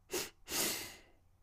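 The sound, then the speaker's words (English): A slow demonstration breath through the nose during a guided breathing exercise: a short airy puff, then a longer, soft breath that fades out. The sounds are quiet and heard alone. “I'll do a demonstration and then we will do three rounds together. So inhaling for two.”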